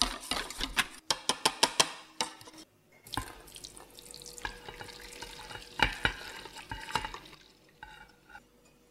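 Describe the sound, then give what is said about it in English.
A milk and cream mixture is passed through a sieve. A quick run of sharp clicks comes first, then irregular scraping, tapping and watery stirring sounds at moderate volume. “if you're unsure whether you have lumps or not, you can always pass it through a sieve again. Let's do that now.”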